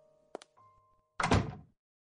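A door shuts with one solid, heavy thunk, preceded by a faint click and a soft low rumble, then silence.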